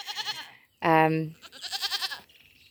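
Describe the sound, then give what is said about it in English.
A tree-climbing goat gives a single loud, nasal bleat with a strong buzzing tone, framed by a person talking before and after it. “a little tree climbing goat”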